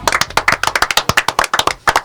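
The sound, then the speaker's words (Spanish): Applause from an audience: many sharp, distinct hand claps in quick, uneven succession, loud and crisp, with no voices over them. “Así que creo que un aplauso creo que es más que meritorio.”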